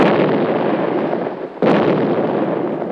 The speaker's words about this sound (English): In time, we proceeded to the bomb line off the coast of Korea, making gun strikes from time to time with our 8-inch guns.